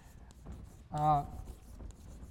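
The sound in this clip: Scratchy strokes of a lecturer writing on a board in a real estate finance class, soft rubbing marks before and after a brief vocal sound in the middle.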